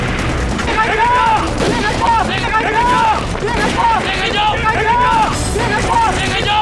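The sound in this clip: Gunfire during a wartime raid scene: a dense, continuous run of sharp shots and bursts, with men shouting and voices mixed in throughout.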